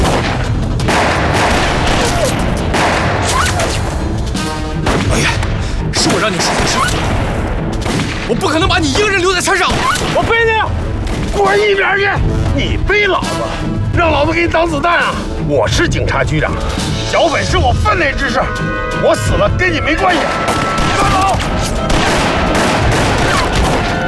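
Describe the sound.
Gunfire in a firefight on a mountain, many rapid shots and bursts packed densely together, with voices shouting over the din.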